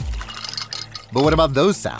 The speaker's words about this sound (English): Those are the sounds of the Samsung Bespoke Refrigerator's beverage sensor with internal water dispenser and built-in pitcher